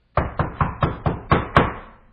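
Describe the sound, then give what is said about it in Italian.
Knuckles knocking on a house door: seven firm raps in a steady, even rhythm, with the last knock the loudest. The knocks ring out alone, with no voices. “bussò.”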